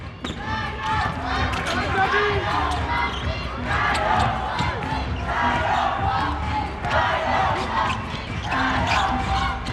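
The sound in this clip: Basketball dribbling on the court during overtime of a game, its bounces blending into a steady, loud crowd roar with voices throughout.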